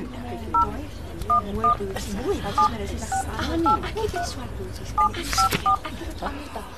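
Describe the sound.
A telephone is dialled with touch-tone keys, giving many short dual-tone beeps in irregular groups while a person talks over them.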